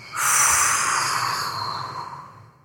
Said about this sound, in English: Gaze to the third eye. And now powerfully exhale.